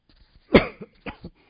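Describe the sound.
A sharp cough from an itchy throat, with one strong burst followed by a few shorter, softer coughs. There is no talk.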